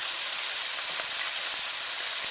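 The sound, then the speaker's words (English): Raw shrimp sizzling in hot oil in a pan, seasoned with salt: a loud, steady, bright hiss that holds without a break and has no talk over it. “Okay guys, so we're heating some oil in our pan. So we're gonna add our shrimp here first. So we are using raw shrimp.”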